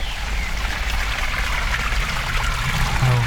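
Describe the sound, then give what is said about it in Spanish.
Water runs steadily from the three spouts of a fountain decorated with a figure, a continuous, even splashing rush at constant loudness with no voices. “Oh, una fuente que preciosa, porque tiene una figura. Es el caño por el cual sale el agua. Son tres caños lo que hay en esta fuente.”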